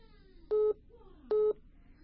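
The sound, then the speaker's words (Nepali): Two short, steady electronic beeps of a telephone disconnect tone on a dropped call line, evenly spaced and equal in length, with no talk around them. “यति बेला साथी हुनुहुन्थ्यो, उहाँको phone disconnect भइसकेको छ।”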